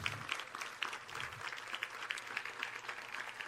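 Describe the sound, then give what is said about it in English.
An audience applauds steadily for over three seconds, a dense wash of many hands clapping at an even, fairly quiet level, with no voices over it. “please applaud Janice Struble for her efforts”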